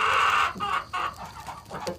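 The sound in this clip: Chicken clucking: a hen gives a short run of raspy, choppy clucks. A longer opening call is followed by several quick, uneven bursts of fairly faint clucks.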